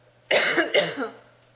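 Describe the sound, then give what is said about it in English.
One person coughs twice in quick succession while giving a talk. Both bursts are sharp and fairly loud, the second trailing off into quiet. “Sorry, I got a little bit of cough right now.”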